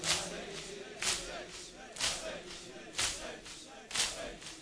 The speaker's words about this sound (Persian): فقط سینه بزن بگو حسین اینجوری باید سینه بزن تا آخر.